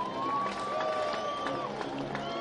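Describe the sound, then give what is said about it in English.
Fans clap and cheer at a Kannapolis home baseball game late in the ninth inning, a steady crowd roar with scattered claps and a few sustained shouted cheers riding on top. “Fans clapping and cheering for Kannapolis.”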